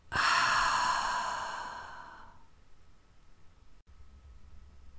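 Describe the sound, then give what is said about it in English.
A deep, breathy exhale during a breathing exercise, a strong airy rush that starts loud and slowly fades over about two seconds, leaving near silence with no voices. “Breathe in and exhale out.”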